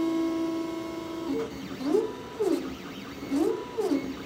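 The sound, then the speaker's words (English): A 3D printer running at the New Jersey Institute of Technology. A steady motor whine gives way to repeated whirring sweeps that rise and fall in pitch, a few cycles of stepper-motor movement. “That's the sound of a 3D printer at the New Jersey Institute of Technology, where Dudley is a student.”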